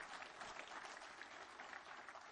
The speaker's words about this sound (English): Come on, somebody give him a good clap offering.